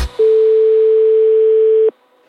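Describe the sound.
A telephone tone sounds after the line is hung up: one loud, steady, continuous beep lasting under two seconds, then near silence.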